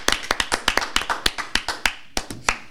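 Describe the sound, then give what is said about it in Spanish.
An audience clapping hands in praise during a church service: many sharp, evenly spaced claps in a steady, brisk beat, with no talking. “Let's give God a hand praise.”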